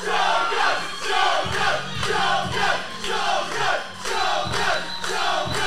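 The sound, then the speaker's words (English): A crowd chants in unison, loud shouted phrases repeating roughly every second, each call swelling into a full-throated roar. “Crowd chanting Shogun. Everybody into Shogun.”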